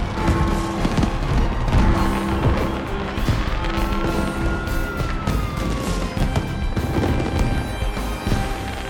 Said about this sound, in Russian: Новый год. Салют.